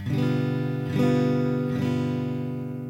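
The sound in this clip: A G7 chord played on guitar, strummed three times, with each full, bright chord ringing out and slowly fading, heard alone.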